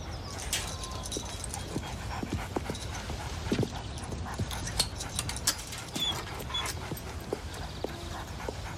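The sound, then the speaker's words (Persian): Dogs make faint whimpers and scattered clicking, scrabbling sounds beneath a steady hiss of background noise, with no clear barking. “نمیتونی سگا بیاری تو؟”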